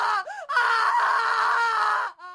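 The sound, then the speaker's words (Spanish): A young woman screams in horror in a dramatized scene. The long, sustained, high scream wavers briefly at the start, then holds loud and steady before breaking off into a short final burst. “Tras contemplar esas marcas, la joven, incrédula y fuera de sí, grita de horror.”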